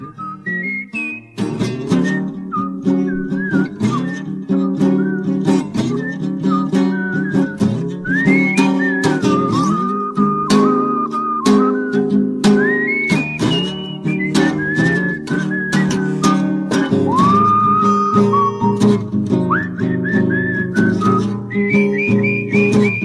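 A person whistles a lively tune, the melody moving between held notes and quick runs. It plays loud and continuous for over twenty seconds.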